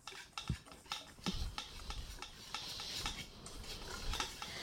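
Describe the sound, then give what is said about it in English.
A whisk stirs dry cornbread ingredients, flour mixed with baking soda and baking powder, in a bowl: faint, repeated scraping and tapping strokes in a steady rhythm, with a soft, continuous rustle between them. “then we're just gonna kind of whisk that together. Get it all mixed up, that's the point.”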